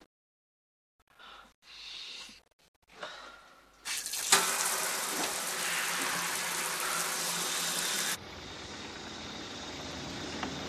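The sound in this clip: Water running in a shower: after a few faint knocks and rustles, a loud steady hiss of spray starts, then shifts to a softer, duller rush that keeps flowing to the end.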